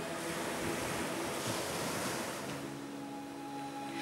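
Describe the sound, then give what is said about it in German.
Gentle waves break on a shore in a soft, continuous wash of surf, with a light hiss of wind running underneath and no voices. “Das sanfte Rauschen der Wellen, die auf die Küste trafen, erzeugte ein beruhigendes Lied, das wie eine wohltuende Melodie für die Seele klang.”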